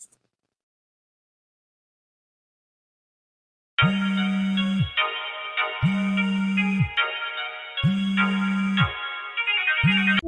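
A phone ringtone signals an incoming call: a loud, repeating electronic ring in about one-second bursts with short pauses, three full rings and the start of a fourth, following several seconds of silence.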